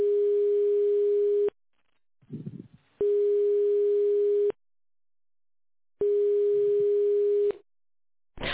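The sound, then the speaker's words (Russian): Telephone ringback tone while a call is placed: three long, steady single-pitch tones separated by equal silent gaps, with faint rustling noise in one gap and a fourth tone just starting at the end. “Продолжаю вызов. Оставайтесь на линии. Абонент еще не взял трубку.”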